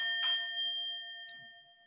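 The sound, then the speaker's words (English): A bright bell is struck once and its clear, ringing tone decays slowly into a long shimmering tail, with a faint tick partway through and no voices. “Ding, ding.”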